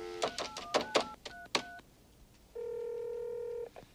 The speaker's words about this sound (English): Call my home. Here. Speaker's on.